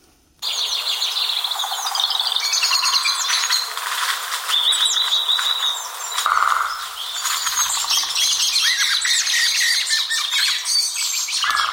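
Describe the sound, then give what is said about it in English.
Deep, dark forest ambience in a real forest, dense with many birds chirping, squawking and calling over one another in a continuous, busy chorus, with no talking. “Here is the sound of the deep, dark forest.”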